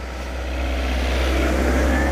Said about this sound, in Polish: Oczekajcie, bo akurat samochód będzie przejeżdżał obok mnie.